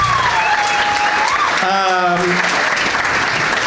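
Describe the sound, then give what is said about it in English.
Audience applause for three guests at a live comedy show: dense, loud clapping that holds steady throughout, with a voice briefly rising above it partway through. “One more round of applause for all three of my guests.”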